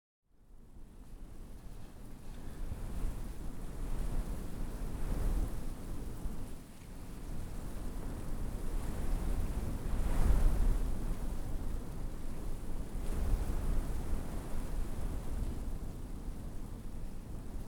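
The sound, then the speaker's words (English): Wind blows across the open prairie as a steady, broad rushing roar with a deep rumble underneath, swelling in a few gusts and easing again, with no voices. “What would the prairies be without wind? It's the keynote sound here.”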